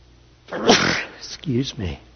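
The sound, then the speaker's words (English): A single sharp sneeze bursts out from a person indoors, followed by a few spoken words. “Something in this building is causing me to sneeze.”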